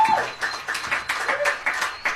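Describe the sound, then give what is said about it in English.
Scattered clapping from a small crowd at a Porch Fest community street music event, thanking volunteers; uneven bursts of individual claps come and go rather than forming a steady roar. “Let's give these folks a huge round of applause.”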